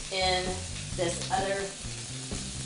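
Onions frying in a very hot pan: a steady, loud crackling sizzle that continues throughout with slight surges, suggesting stirring.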